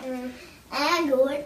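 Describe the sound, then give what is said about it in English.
A small daughter babbles in short, high-pitched vocal bursts, with a brief pause between her first sound and a longer, louder stretch of babble. “You can hear my daughter in the background.”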